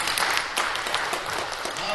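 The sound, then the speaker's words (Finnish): A church audience gives dense, continuous applause, a steady wash of many hands clapping at once, with voices mixed in. “Annetaan aplodit Jeesukselle.”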